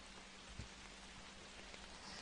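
Rain falls as a faint, steady, even hiss of drops with no distinct pattern. No voices are heard.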